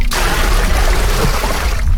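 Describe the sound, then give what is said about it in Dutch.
Water poured into a tub gives a loud, steady rushing splash that holds evenly for the whole short stretch, with no other sound. “In de bak? Water erin, ja.”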